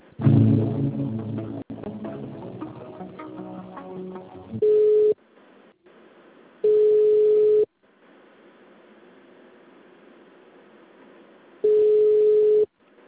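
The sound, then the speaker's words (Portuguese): Steady telephone line tones as a call to a municipal office is transferred and waits on hold: three identical beeps, the first brief and the next two about a second long, separated by stretches of quiet line hiss. “Demais setores, departamentos ou aguarde para ser atendido. Transferindo ligação.”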